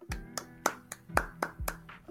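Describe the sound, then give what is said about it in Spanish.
Rhythmic hand clapping in applause, a series of sharp, evenly spaced claps at a steady brisk pace over a low sustained tone. “Un aplauso, un aplauso a Vector, porque es todo un ídolo, es todo un capo, se los merece, felicidades.”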